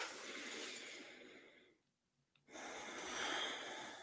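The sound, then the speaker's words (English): A deep breath taken while someone is guided through a relaxation exercise: two long, airy rushes of breath, separated by a short silent pause, moderately loud and with no talking. “So close your eyes, take a deep breath.”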